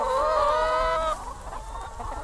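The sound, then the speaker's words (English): Hundreds of hens in an enclosed field in Lincoln cluck and squawk in a dense, continuous chorus. The flock is louder through the first half and then drops to a softer, busier clucking. “That's the sound of hundreds of hens running around an enclosed field in Lincoln.”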